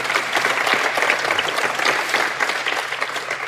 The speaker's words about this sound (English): So, Star Talk audience, give it up for Andy Weir.